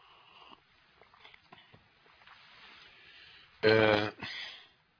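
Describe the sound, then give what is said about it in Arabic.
A man coughs while giving a religious talk: after a stretch of faint, scattered sounds, two loud, harsh coughs come near the end, the first stronger than the second. “اسمحوا لي عشان الكحة بس”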